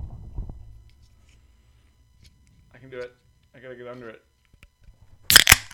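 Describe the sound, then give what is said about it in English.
A can of Summit EPA beer cracked open, heard as a sudden sharp hiss burst at the very end, after a soft rustle and two short stretches of quiet talk. “I'm going to crack my beer.”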